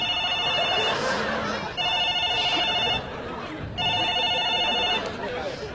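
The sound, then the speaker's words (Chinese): A telephone rings in loud, trilling electronic bursts that repeat with short pauses between them. “这什么破电话呢？这是。”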